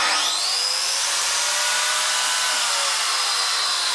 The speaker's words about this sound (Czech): To je rozbruska, já jsem si koupila jakýho mazlíka, vlastně to napodobuje dláto, používá to hodně jako řezbářů.